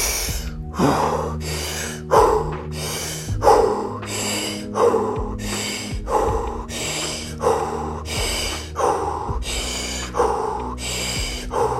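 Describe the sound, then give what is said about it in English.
Forceful breaths drawn again and again during a breathwork exercise: many loud, rushing bursts in a steady rhythm about a second apart. “Three, two, and one. Inhale.”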